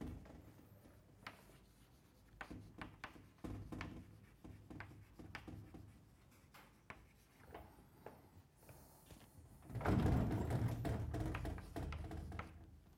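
Writing on a board produces faint, scratchy strokes and light taps at an uneven pace, growing louder and denser in a burst toward the end.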